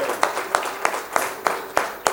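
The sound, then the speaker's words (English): A church audience claps in praise of the Lord: seven sharp, crisp claps land in unison at a steady, even beat. “Let's give the Lord a hand clap.”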